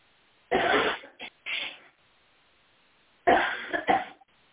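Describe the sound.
A preacher blowing his nose during a Wednesday night church service: two clusters of noisy, honking bursts separated by a pause, each followed by a few shorter blasts.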